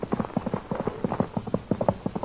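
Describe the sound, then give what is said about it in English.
Horse hooves clip-clop in a steady, even rhythm of many quick hoofbeats at a constant loudness throughout. “Then he rides again. What a horse. Quiet. Here comes the horse.”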